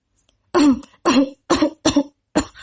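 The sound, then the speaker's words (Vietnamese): Five harsh, hard coughs from a person struggling to breathe, each a short loud burst separated by brief silent gasps. “Kim Tại Trung liều mạng ho khan, suýt nữa không thở nổi.”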